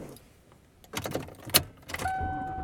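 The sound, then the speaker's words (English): A car's interior while it is being driven home: a faint low hum under a few clicks and rattles, then a steady electronic chime sustains near the end. No one talks. “And I am driving home.”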